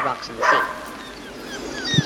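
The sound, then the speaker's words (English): A neighbour's dog in a garden gives a couple of short, high yips and barks, one early and one at the very end, with quieter sound in between. “next door's dog”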